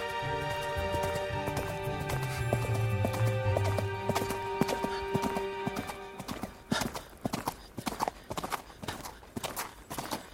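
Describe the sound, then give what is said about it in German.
Horse hooves clip-clop along a deserted, winding path in a steady rhythm. The hoofbeats become sharper and more distinct in the second half. “Ich ritt den verlassenen, sich schlängelnden Weg entlang.”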